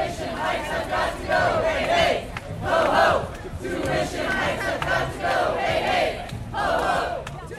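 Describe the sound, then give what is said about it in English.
Crowd of students rallying outside a university building in Quebec on a warm, breezy afternoon to protest a tuition increase, shouting and chanting together in loud rhythmic waves that rise and fall. “Most students have gone home for the holidays, but what you're hearing now are the ones that stuck around.”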